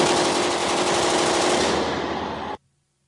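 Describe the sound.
A SAW light machine gun fires one long, sustained burst of automatic fire, a loud, rapid and continuous rattle that cuts off abruptly into silence near the end.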